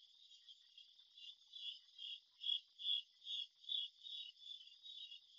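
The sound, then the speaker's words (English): Crickets chirping on an evening outdoors, a faint, steady high-pitched trill pulsing in a regular rhythm throughout, with no other sounds. “the dog has stopped barking, and I hear the crickets on a beautiful evening.”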